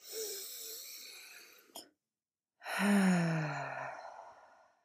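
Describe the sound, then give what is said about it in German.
A deep breath in and out during a guided relaxation breathing exercise: a long airy inhale, a brief silent pause, then a long, loud exhale with a voiced sigh that gradually fades away. “lade ich dich ein, mit mir einmal tief auszuatmen und während du dann ausatmest, fließt die Wolke einfach so fort. Okay? Atme ein.”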